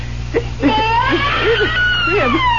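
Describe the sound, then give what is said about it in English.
A baby crying in a hand-carved crib: several wavering, whimpering wails, rising and falling in pitch, repeat over a steady low hum. “A baby crying right here in this crib.”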